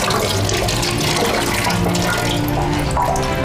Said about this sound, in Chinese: 妈妈给你洗洗手啊，来来，妈妈给南方洗洗小手啊